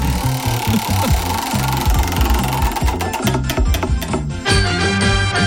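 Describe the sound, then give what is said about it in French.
Prize wheel being spun during a radio game, giving a loud, rapid, mechanical rattle of clicks that runs steadily throughout with a busy, chattering texture. “Je vous propose qu'on fasse tourner cette roue.”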